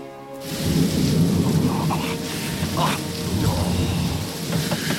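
Heavy pouring rain hisses steadily outside a pub, with deep thunder rumbling beneath it in a dense, continuous roar that swells slightly and never lets up.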